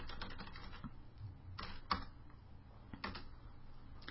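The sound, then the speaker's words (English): Quiet typing on a keyboard, a string of soft, irregular key clicks with a few sharper taps. “In fact, I'm going to type myself a note.”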